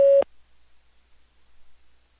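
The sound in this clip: A voicemail system's recording tone, a single short, steady mid-pitched beep at the very start, followed by near silence.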